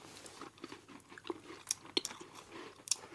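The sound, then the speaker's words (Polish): A woman chewing and biting into a meal after a day of work, with faint, soft crunches and mouth sounds spaced irregularly, a few sharper bites standing out against quiet. “Jestem głodna po całym dniu pracy. Siadam i jem.”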